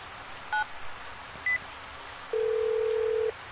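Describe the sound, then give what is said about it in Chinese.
Telephone keypad tones as a number is dialed: two short, clear beeps a second apart, then a longer steady tone lasting about a second, all over a faint background hiss. “我打个电话啊”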